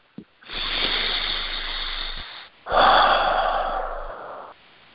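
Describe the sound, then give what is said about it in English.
A single deep breath: a long, drawn-out airy inhale, a brief pause, then a louder, fuller exhale that trails off. It is heard alone, with no talking. “So I invite you just to take a deep breath.”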